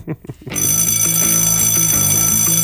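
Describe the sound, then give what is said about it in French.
A bell ringing in a bedroom, a bright, loud, continuous metallic ringing with a rapid pulsing rhythm that starts abruptly after a moment of talk and keeps going to the end. “Vous n'êtes pas en retard, c'est juste une sonnerie, une sonnette dans la chambre.”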